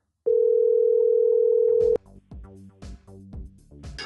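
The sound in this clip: Telephone dial tone heard while calling a restaurant back. It is a steady, unbroken single tone lasting under two seconds, then it cuts off into quieter, irregular sounds.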